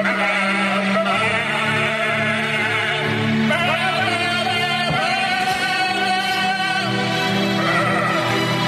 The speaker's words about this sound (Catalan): Però això són persones o són ovelles? Són ovelles.